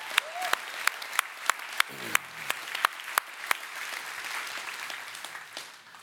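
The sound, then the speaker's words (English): Audience applause as performers leave a stage: a string of sharp, evenly spaced claps that gives way to a denser, continuous wash of clapping, which tapers slightly at the end. “All right, get off stage here. Can we appreciate these guys?”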